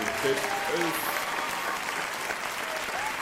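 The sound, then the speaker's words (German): Crowd applause greets the hosts: dense, steady clapping that holds evenly from start to end, with a voice briefly heard over it at the beginning. “Ja, Applaus ist immer gut.”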